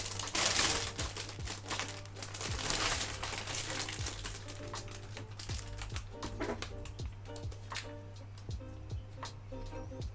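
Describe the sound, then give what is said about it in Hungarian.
A sticker, number 11, is handled and peeled: crinkly, papery rustling with many sharp little ticks and clicks over a steady low hum. No one talks. “Jön a 11-es matrica.”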